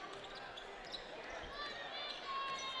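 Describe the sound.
A basketball is dribbled on a court during a game, with faint bouncing thuds under crowd noise and voices.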